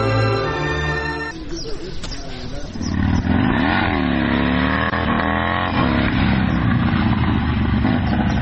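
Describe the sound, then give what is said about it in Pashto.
A motorcycle engine is heard, first as a steady, low running tone, then loud revving that swells and sways up and down in pitch, continuing strongly to the end. “زه به دا موټر سکل لږ بغل ته ودروم.”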